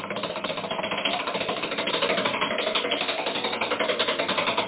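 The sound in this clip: A spinning prize wheel clicks rapidly, its many ratcheting ticks running in a fast, even rhythm with no talk over them.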